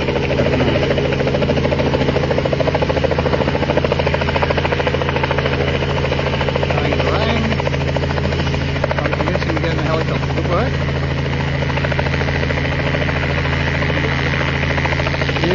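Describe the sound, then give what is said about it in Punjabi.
A helicopter hovers in place, held steady and balanced while a man climbs aboard from one side. Its rotor and engine make a loud, continuous drone with a low, throbbing hum that stays even and unbroken throughout. “ਕੰਮ ਹੈ ਜੀ helicopter ਇਸ ਤਰ੍ਹਾਂ ਟਿਕਾ ਕੇ ਰੱਖਣਾ ਅਤੇ balance ਰੱਖਣਾ”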